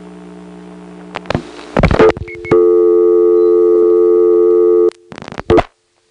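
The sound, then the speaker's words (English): Clicks and clacks of the Smyrna step-by-step electromechanical telephone exchange as 5 is dialed in October 1977: a cluster of sharp switching clicks, a long steady humming tone, then a few more clicks before silence. “It's now October 1977, and from the Smyrna step, let's dial 5.”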